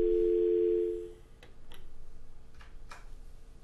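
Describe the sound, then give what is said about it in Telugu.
A steady dial tone after a phone call drops during a call-in: loud and even for about a second, then cut off, leaving faint clicks over a low hiss. “Hello, call cut అయిపోయింది.”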